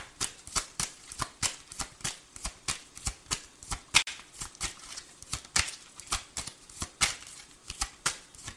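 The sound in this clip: Tarot cards being shuffled by hand, giving many crisp, rapid snaps in a steady, even rhythm with no talk.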